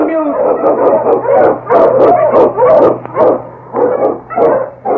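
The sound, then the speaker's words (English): An Eskimo sled lead dog barks and howls in many loud, rhythmic bursts, with yelping, wavering cries rising and falling one after another. “The Wonder Dog King, swiftest and strongest of Eskimo lead dogs, blazes a trail through storm and snow for Sergeant Preston”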